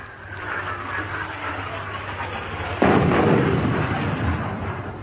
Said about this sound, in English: if we'd still been on that island, they'd have started shelling just about now.